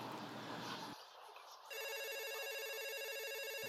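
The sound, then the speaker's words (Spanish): A telephone rings with an incoming call to a studio. A steady, faint electronic ring starts partway through, after a stretch of hissy noise and a short quieter gap. “tendremos que interrumpir el espacio informativo, pues estamos recibiendo una llamada al estudio.”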